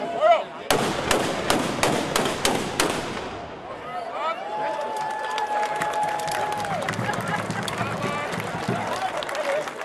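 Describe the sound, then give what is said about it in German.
Ceremonial salute guns fire to open a marksmen's guild home festival in Zerbst, a rapid series of sharp loud bangs followed by a continuous wash of crowd noise. “Mit einem Böllerschießen gab die Schützengilde Zerbst den Startschuss für das Heimat- und Schützenfest 2026.”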